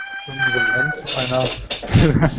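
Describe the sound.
A cat meows in a long, high, drawn-out cry, followed by rougher, strained yowling sounds.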